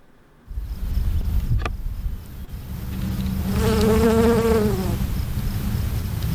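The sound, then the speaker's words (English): Bees buzzing, a honeybee and a bumblebee: a steady low drone that briefly dips in loudness, then a louder, fuller buzz with a clear harmonic tone that wavers slightly before easing off. “What we're going to hear now are two clips. One of them is going to be a honeybee. One of them is going to be a bumblebee.”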